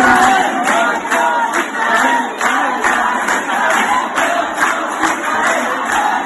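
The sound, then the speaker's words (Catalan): A crowd chants loudly at a street protest march in Barcelona, with steady rhythmic shouting and a regular pulse of repeated beats throughout. “Aquest és el so de la manifestació d'ahir, amb una marxa que va començar a la Rambla del Raval i que va anar fins a la seu de la Unió Europea,”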